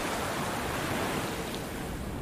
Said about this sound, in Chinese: 在潮之州，潮水往复。